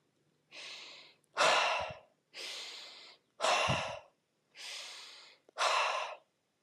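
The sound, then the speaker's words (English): Breathing exercise done before meditation, in through the nose and out with a voiced "ha": six breathy bursts in a steady rhythm, softer inhales alternating with louder, forceful exhales. “So breathing in through the nose and breathing out like a ha. So it's like an aha.”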